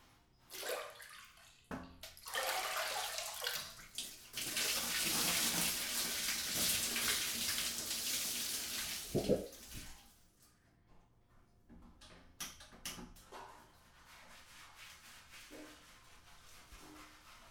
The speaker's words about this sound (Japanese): 人に髪を洗ってもらうのってなんだか不思議な気持ちよさがあるよな。